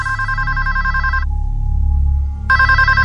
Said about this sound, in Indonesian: Belum sampai keluar kamar, telepon itu berbunyi lagi.